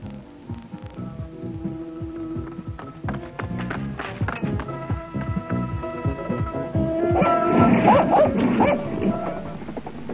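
A dog barks in a Kurdish-dubbed cartoon series, giving many rapid, rhythmic yelps over a steady humming tone. The sound grows fuller and denser toward the end.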